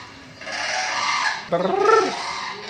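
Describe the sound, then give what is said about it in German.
A human voice imitates a heron's call, giving a breathy hiss that turns into a short, harsh, croaking squawk. “Und das war ein Reiher. Und ich sehe, ein Reiher fliegt durchs Bild.”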